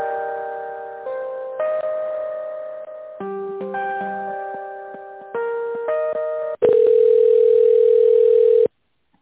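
Telephone line tones during a call transfer: a run of steady electronic tones stepping between pitches, then a louder continuous single tone that cuts off abruptly near the end.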